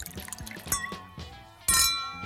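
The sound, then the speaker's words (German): Glasses clinking in a New Year toast: a lighter chime, then a louder, bright ringing clink that lingers, with small knocks around them. “Hierauf stoßen wir jetzt an. Prost!”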